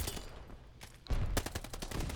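Rapid gunfire in the Call of Duty Vanguard beta as shots tear through cover. A quiet lead-in gives way to a loud, dense burst of many sharp cracks that keeps going to the end.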